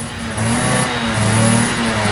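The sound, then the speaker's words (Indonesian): Motorcycle engine revving as a rider arrives to pick someone up, a steady mid-pitched droning growl that swells slightly louder after a brief lower start and holds with small wavering surges. “Lo serius jemput gue pakai motor kayak gini?”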